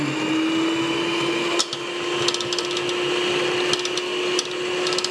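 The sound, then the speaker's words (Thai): A blender mixing batter gives off a steady, even whirring drone with a constant pitch, broken only by a few faint clicks and ticks. “อันนี้ปั่นนานนิดนึงค่ะอาจารย์ นานนิดนึง”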